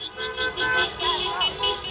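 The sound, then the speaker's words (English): Car horns honk in downtown Los Angeles as people celebrate in the street on a Saturday morning after a presidential election result. Several horn tones overlap in sustained, repeated blasts over street noise. “That's the sound of people celebrating in downtown LA on Saturday morning”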